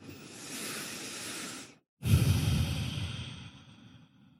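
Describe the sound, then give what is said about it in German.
Deep breathing during a guided meditation: two long, airy breaths split by a short silent pause, the second fuller and louder before fading slowly away. “atme ein paar Mal tiefer ein und aus.”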